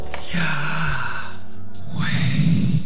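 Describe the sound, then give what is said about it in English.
A person breathing in and out naturally and slowly: soft, airy breaths that are fairly loud and close, with no clear words spoken. “If you'll just naturally breathe, it sounds like this.”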